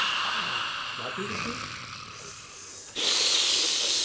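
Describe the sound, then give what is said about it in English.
A group of people drawing breath in unison through their teeth, a sustained airy hiss that runs for about three seconds before a sudden, louder and brighter hissing rush takes over. “Everyone breathe in through their teeth at the same time. Exhale.”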